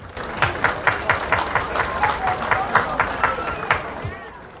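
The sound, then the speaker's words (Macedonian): Audience applause at a Macedonian festival in a park in Sydney: many hands clap together in a steady, rhythmic beat of quick, even pulses that stays loud throughout. “Еден аплауз за сите нив, ќе ве замолам.”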